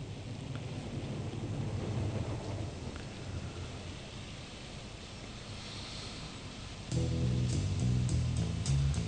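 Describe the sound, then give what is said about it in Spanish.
Steady rushing rain from a passing thunderstorm, with low rumbling thunder under the downpour. A music track with a clear tonal beat comes in near the end. “vamos a arrancar igual tranquilitos con una lluviecita que va entrando por ahí, una tormenta, que no es la que se viene, esperemos.”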